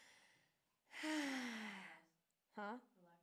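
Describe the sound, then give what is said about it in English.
An audience collectively takes a deep breath during a relaxation exercise: one long, breathy, rushing swell lasting about a second, then a brief voiced exhale. “You just take a deep breath. Everybody take a deep breath.”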